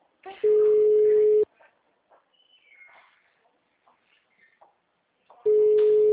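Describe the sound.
Telephone ringback tone on an unanswered call: two long, loud, steady tone bursts, the second cut off at the end, with faint voices talking in the quiet gap between them.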